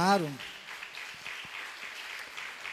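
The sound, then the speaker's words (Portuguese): A church audience applauds during a worship service. A short voice opens, then a moderate, steady wash of clapping continues to the end. “Aplaudam ao Senhor. Glória a Deus.”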